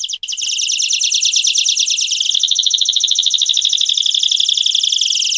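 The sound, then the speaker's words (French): A canary sings alone in a loud, unbroken stream of rapid high-pitched trills and chirps that continues throughout. “Ce que vous entendez à présent, c'est un canari.”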